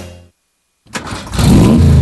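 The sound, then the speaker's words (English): Turbocharged car engine revving: a short rumble fades into a pause, then the engine bursts back in and builds to a loud, sustained roar. “Turbo engines rule the road these days. Sure, they're cool, but they run hot.”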